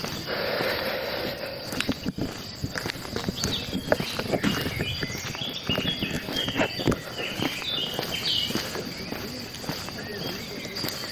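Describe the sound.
A chaffinch calls from a chestnut tree overhead with a scattering of short, high chirps over continuous insect chirring, while a person talks throughout.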